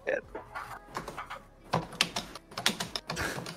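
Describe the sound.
Typing on a computer keyboard, a scatter of quick clicky keystrokes in irregular bursts, heard under and between people talking.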